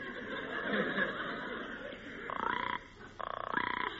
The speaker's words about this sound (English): The frog is waiting for her mate to come home, just like the bird. Listen, she's calling to her mate.